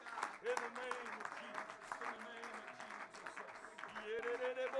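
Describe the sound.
Congregation clapping hands during a lively evening worship service, a steady patter of many hands under voices that carry over the top and swell louder toward the end.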